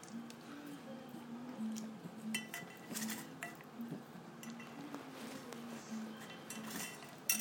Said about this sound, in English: Now he's pushing his dish along the floor.